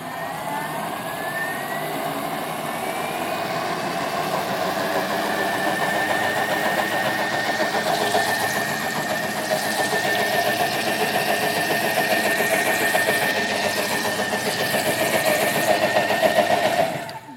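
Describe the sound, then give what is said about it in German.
Blender motor whirring steadily while mixing green vegetable juice, a loud, even drone with a constant whine that holds for about seventeen seconds with no talk over it. “So, also nochmal mixen, wird ein bisschen laut.”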